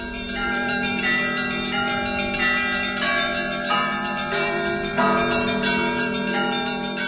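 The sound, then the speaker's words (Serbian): Orthodox church bells of the Hilandar monastery on Mount Athos ring at sunset in a dense, continuous peal of overlapping resonant tones, with fresh strikes layering over the sustained ringing. “Sunce možda u ovaj čas zalazi nad Svetom Gorom. Zvone zvona Hilandarska.”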